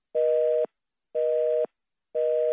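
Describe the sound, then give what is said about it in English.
Telephone busy signal on a dialed call: three evenly spaced, steady mid-pitched tone beeps, each about half a second, separated by equal silences, heard alone. “I guess the CDC's lines are busy now. I guess the CDC's lines are all tied up now.”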